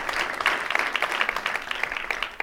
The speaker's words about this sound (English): All right, big round of applause.